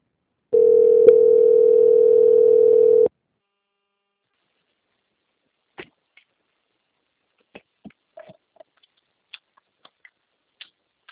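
A steady single-pitch telephone line tone plays while a call is being transferred. It holds for about two and a half seconds, then stops, and several faint scattered clicks follow on an otherwise quiet line.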